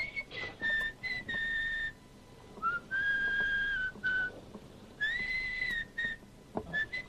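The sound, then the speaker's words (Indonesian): A woman whistles a tune at night in several short melodic phrases of clear, high notes, some sliding smoothly in pitch, with brief pauses between phrases and no talk. “Kok denger siulan terus sih?”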